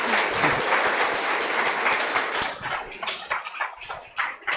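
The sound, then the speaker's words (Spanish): Audience applause at a talk, a dense, steady wash of many hands clapping that thins toward the end, where separate claps become audible. “Un aplauso, por favor.”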